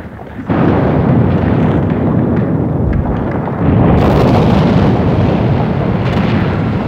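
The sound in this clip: Wartime explosions roar as a loud, continuous rumbling wall of noise with no clear gaps. The rumble swells again about halfway through, after vehicles have stopped with their headlights switched off.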